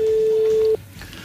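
A telephone line tone while a call is placed to a listener, one steady mid-pitched tone that cuts off abruptly after under a second, leaving faint line noise.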